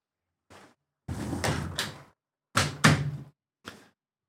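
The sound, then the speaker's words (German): A window being closed, heard as a few separate bursts of knocking and rumbling handling noise. The longer middle bursts are louder, with a short faint knock at the start and another near the end. No voices. “Ich muss das Fenster zumachen”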